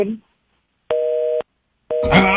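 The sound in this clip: A telephone busy signal sounds after a call is cut off. Two clear steady tone pulses, each about half a second long, are separated by silence, and a voice starts talking over the second pulse.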